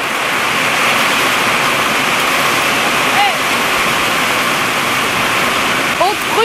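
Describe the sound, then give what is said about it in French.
A hailstorm roars as a dense, unbroken wash of pelting noise, loud and steady throughout like heavy rain or rushing water. “Au départ, c'était un simple orage de grêle.”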